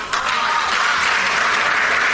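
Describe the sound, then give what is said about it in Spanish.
An audience applauds, a loud, continuous wash of many hands clapping that holds steady without breaks. “No era para que aplaudieran, pero bueno...”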